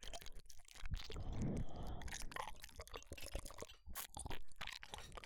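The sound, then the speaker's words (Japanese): Chewing and crunching of a home-cooked meal, a steady run of dense, crisp bites and mouth noises that continues loudly throughout with no talk. “食べよう食べよう。”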